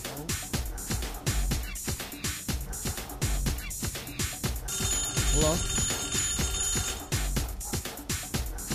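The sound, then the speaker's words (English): Telephone ringing: a high, trilling electronic ring sounds for a couple of seconds over loud music with a steady beat. “everybody home? Hello? Somebody answered that phone, will you? You answered the damn phone.”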